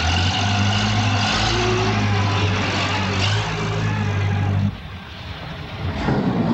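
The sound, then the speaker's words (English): A loader's heavy engine drones as the big machine is driven toward a compound's perimeter fence. The low, steady rumble dips briefly near the end, then swells again. “He wheels the big machine toward the compound's perimeter fence.”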